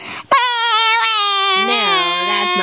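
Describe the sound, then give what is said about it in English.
A child imitates sobbing with one long, sustained wailing tone, high and steady, dipping slightly lower toward the end, heard alone. “How do you sob?”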